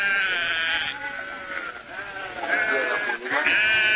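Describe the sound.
Sheep bleating in a shepherd's flock: overlapping, wavering bleats follow one another with almost no gaps, loud and steady throughout, with no talk over them.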